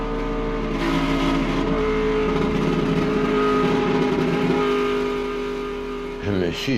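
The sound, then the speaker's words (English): An Aston Martin race car speeds down the straightaway past a crash site, its engine a loud, steady, droning roar that holds for several seconds before shifting near the end. “Paul Frere, inside his Aston Martin, speeds through the crash site on the straightaway.”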